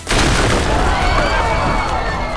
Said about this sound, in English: Daedalus ducked as the wall exploded into brilliant purple and orange flames.